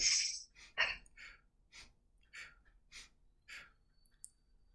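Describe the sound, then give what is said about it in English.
Breathing during a guided breathing exercise, in through the nose and out through the mouth: several soft, airy breaths in an uneven rhythm, with no talking. “But if you can breathe in your nose, do that in your nose and out your mouth with your eyes up.”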